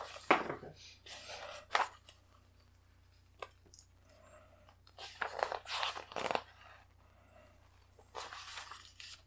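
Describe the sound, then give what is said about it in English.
Pages turning during a tabletop game session: several soft, papery swishes and crinkles in short bursts separated by quiet gaps, faint and with no talking over them. “Page turning, ASMR.”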